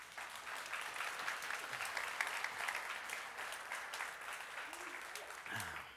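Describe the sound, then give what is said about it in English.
An audience at a church service breaks into sustained applause for a speaker. The clapping stays dense and steady from start to finish, with a brief voice near the end. “So, would you give Renee a hand?”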